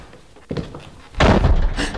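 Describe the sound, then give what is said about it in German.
A door swings and falls shut in a low, cramped passage, a softer knock followed by a loud, heavy thudding slam that holds for a moment. “die Tür. Oh. Sie ist zugefallen.”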